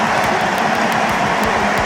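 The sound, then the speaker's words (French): A stadium crowd gives a sustained ovation as France captain Kylian Mbappé is substituted during a football match. The cheering and clapping blend into one dense, steady roar that stays loud and even throughout, with no clear breaks. “Écoutez l'ovation pour Kylian Mbappé, et il n'y a que 3000 Français, je vous le rappelle, dans ce stade. C'est l'ovation mondiale.”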